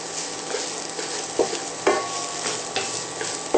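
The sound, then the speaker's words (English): Sliced yellow and red onions sizzle steadily as they are stirred to coat in hot oil, with a few sharp scraping clicks of the spoon breaking through the constant hiss of frying. “Using both yellow and red onion, just for a little taste and color differentiation. Move these around to get coated in oil.”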